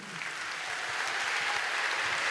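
An audience claps to salute the Lord at a church gathering, a dense, even wash of applause that holds steady throughout without a pause.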